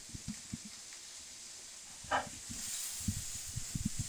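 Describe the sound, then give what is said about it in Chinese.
Chopped onion and garlic sizzle in a small lump of melted butter in a pan, giving a faint, steady hiss with a few soft crackles and clicks of stirring. “直接先下一小块奶油，奶油下去。好，刚刚的洋葱、大蒜就直接下去了。”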